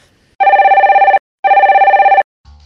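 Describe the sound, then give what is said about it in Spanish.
A telephone rings while a call is placed to a studio. There are two loud bursts of warbling, pulsing ring tone separated by a short gap, then a brief low sound at the end. “Para profundizar un poco más en esta noticia, vamos a realizar una llamada al estudio eh, Eurocom”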